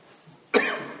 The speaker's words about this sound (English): I was trying to figure out how to cough without doing that into the microphone.